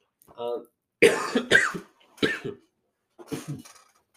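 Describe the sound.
Throat clearing and coughing from phlegm caught in the throat: a few short, harsh, rasping bursts separated by brief pauses, each sounding loud and rough.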